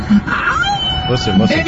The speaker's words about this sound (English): That's just a dog howling.